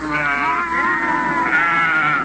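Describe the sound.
A goat bleats in one long, wavering cry that quavers in pitch and stays loud and steady throughout, with no other voices.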